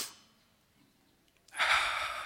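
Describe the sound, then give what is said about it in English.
Deep belly breathing, as in a breathwork exercise: a breath trails off at the start, a quiet pause follows, then a long, loud, rushing breath fills the rest. “We invite you to breathe here like babies do. You've seen babies breathing? They don't care. They just inflate their belly.”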